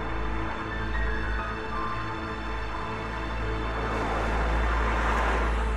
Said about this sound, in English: Tilting down to a wintry rural road, daytime. A beat-up white sedan drives past wintry fields.